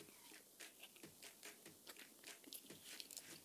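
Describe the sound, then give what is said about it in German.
Chocolate is bitten and chewed, giving faint, crisp crunching that repeats in many quick, irregular bursts, with no talk. “früher habe ich die Schokolade nicht gegessen, aber heute.”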